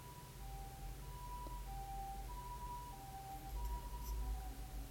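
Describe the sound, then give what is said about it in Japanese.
An ambulance siren wails faintly in a repeating two-tone, high-low pattern, steady throughout over a low rumbling background. “ただの救急車ですね。”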